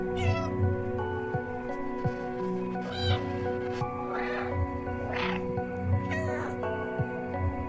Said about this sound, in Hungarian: Ez mind nyávogás.